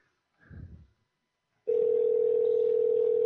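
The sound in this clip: A telephone dial tone sounds for a call back, a loud, steady, unwavering hum that starts abruptly after a brief muffled rustle and holds constant to the end.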